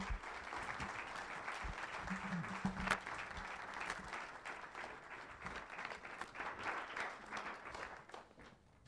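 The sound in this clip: Audience applause at a church service as a guest pastor is welcomed: steady, dense clapping from many hands that stays even throughout and fades only slightly near the end.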